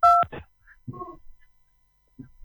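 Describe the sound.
A phone call is dialed, starting with a loud, short keypad tone, followed by a few faint clicks and murmurs on the line and a quiet pause.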